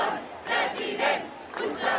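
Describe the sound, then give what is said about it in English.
Crowd chanting at a Catalan independence rally of hundreds of thousands in Barcelona, heard as loud shouted chants that come in a few rhythmic swells, with a constant crowd roar between them. “The crowd shouting Puigdemont for president, referring to exiled leader Carles Puigdemont.”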